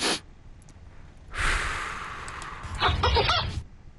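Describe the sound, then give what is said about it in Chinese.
Breathing exercise with quick nasal inhales and a slow mouth exhale, heard as a few soft, airy breaths and one long sighing exhale, fairly quiet. “两次鼻子迅速呼吸，然后用嘴慢慢吐气。”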